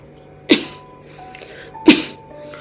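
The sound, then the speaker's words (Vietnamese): Two sharp, explosive coughs from a person, spaced more than a second apart. Each is a brief, loud burst that decays quickly, with near quiet between them. “Vân Bỉ Khâu lại ho.”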